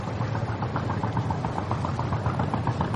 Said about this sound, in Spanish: Se alejan de la isla en una lancha.